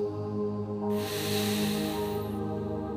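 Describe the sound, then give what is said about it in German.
A deep breath let out in one long, breathy exhale that swells for about a second and a half, then fades into a steady, sustained tonal drone. “Tief einatmen und mit lautem A ausatmen.”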